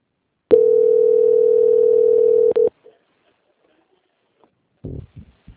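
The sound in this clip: A steady electronic ringing tone sounds while a video call is placed, one flat mid-pitched tone lasting about two seconds, then a brief blip, silence and a few faint short noises.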